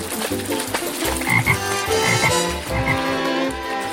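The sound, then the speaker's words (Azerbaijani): Frogs croak beside a pond in a quick, rhythmic run of many loud, throaty pulses that overlap and continue without pause. “Qurbağalar leyləyi görüb, qorxuda gölə tullanaraq gözdən itdilər.”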